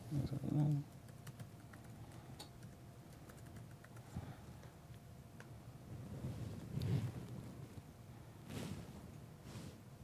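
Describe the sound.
Faint keyboard typing as a password is entered on a computer keyboard: soft, irregular clicks and taps over a low background hum.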